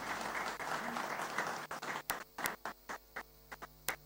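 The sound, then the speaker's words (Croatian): Studio audience applause welcoming guests on a live show, with a faint dense patter of clapping that breaks up into a handful of scattered, isolated claps as it dies away. “E pa dobro došle i jedna i druga, dočekane naravno pljeskom onih koji prate, evo ovaj Đerdan uživo.”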